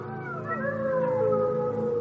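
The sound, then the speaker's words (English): A pack of wolves howls on a clear night under a full moon, with several overlapping, sustained, wavering mid-pitched howls blending into a soft chorus and no other sounds. “Have you ever heard the distant cry of a pack of wolves, howling under a bright full moon shining in a clear night sky?”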